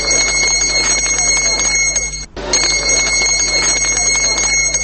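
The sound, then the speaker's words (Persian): A school bell rings at School No. 1 in Beslan before a memorial ceremony, a loud, continuous metallic jangling ring broken by one brief pause midway through. “پیش از آغاز مراسم زنگوله مکتب صدا داد ولی درس شروع نشد”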